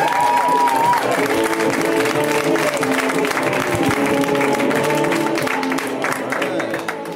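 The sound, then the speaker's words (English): Loud, steady applause from a comedy club audience as a stand-up comedian is introduced. Dense clapping and crowd noise hold for about seven seconds and ease slightly at the end. “Guys, let's hear it right now for Caleb. Simon, give it up for him. Come on.”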